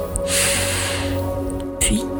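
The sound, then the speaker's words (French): A deep breath drawn in through the nose makes a hissing, snuffly inhale, followed by a shorter sniff. It plays over a steady soft tonal background. “Prends une grande inspiration par le nez”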